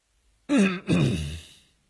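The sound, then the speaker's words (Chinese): Throat clearing from a voice, heard alone without words: two rough, rasping bursts, a short strong one followed by a longer one that fades out gradually. “邓布利多清了清嗓子继续说道，”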